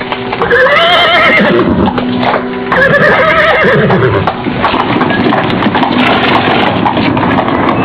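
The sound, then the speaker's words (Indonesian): A horse whinnies, with clip-clop hooves of a departing horse-drawn cart. The neighs rise and fall in pitch over steady, fairly loud hoof and cart clatter that carries on to the end. “Setelah gerobak kuda menghilang di kelokan jalan,”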